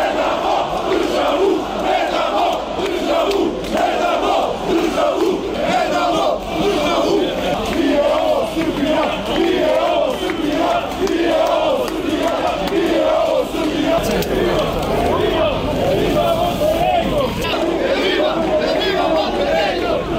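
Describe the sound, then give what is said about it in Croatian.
Several thousand protesters chant loudly outside the Parliament of Montenegro over planned changes to the law on religious freedom, a dense, continuous roar of many voices with rhythmic, repeated shouted phrases throughout. “Samo su neke od poruka koje su se mogle čuti sa današnjeg protesta patriotskih organizacija zbog najave usvajanja izmjena zakona o slobodi vjeroispovijesti. Ispred Skupštine okupilo se nekoliko hiljada građana iz više crnogorskih gradova.”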